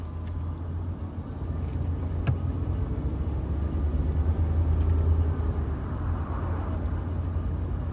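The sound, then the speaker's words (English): Car engine rumbling as the vehicle drives off a lot, a steady low, dense rumble that holds at a fairly even loudness throughout, with no talking. “With the Ventru hurrying to get out of Dodge, we slip out the front and drive off the lot”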